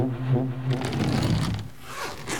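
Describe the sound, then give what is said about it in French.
A suitcase being unzipped and opened, a quick run of rasping zipper scrapes over a low tonal background, moderately loud, with no voices. “Quand la valise a fini par s'ouvrir”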